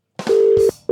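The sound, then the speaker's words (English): A telephone line tone, a steady, low electronic hum held for about half a second, then starting again at the very end, loud and alone apart from a couple of brief soft bursts. “That's the sound of a dial tone.”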